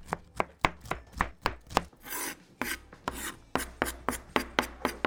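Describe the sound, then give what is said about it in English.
Knife cutting capsicum and wombok cabbage, many quick rhythmic chops against a board, briefly interrupted midway by a longer rasping slice before the steady chopping resumes. “That's the knife I need. Okay, the capsicum is being cut. And then we're onto the wombok over here.”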